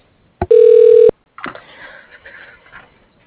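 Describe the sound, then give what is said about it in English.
A telephone keypad tone sounds on an automated phone menu: a click, then a single steady electronic beep held for about half a second, followed by fainter buzzy line noise. “If you know your party's extension, you may dial it now, or press 9 for our dial by name directory.”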